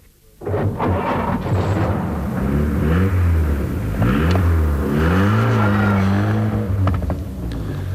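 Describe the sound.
A car engine starts off and drives away on a muddy road at night. It makes a loud, steady droning roar whose pitch climbs in a few surges as it gathers speed.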